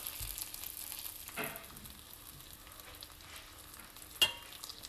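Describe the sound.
Bacon fries in a pan with a faint, steady sizzling hiss and occasional soft crackles. One sharp pop stands out near the end.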